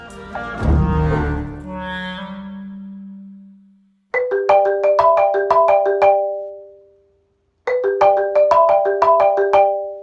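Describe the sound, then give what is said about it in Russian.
A marimba plays the iPhone ringtone melody in two bursts of quick, bright mallet notes. Each phrase runs the familiar pattern with ringing decays, and a short pause separates the two phrases. “эти звуки издает сейчас не телефон. Это сыграно на прекрасном древнем инструменте под названием маримба”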